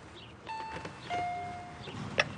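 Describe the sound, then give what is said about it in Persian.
A doorbell rings at the entrance of a home with two sustained chime tones, the second lower than the first. Both are fairly faint over a background hiss. “بابا زنگو بزن.”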